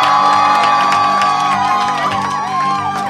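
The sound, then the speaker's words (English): An audience cheers and whoops to welcome a comedian on stage, a loud, continuous roar of cheering with high, sliding whoops and shouts rising above it throughout. “Ladies and gentlemen, please give a warm welcome to Alan Land!”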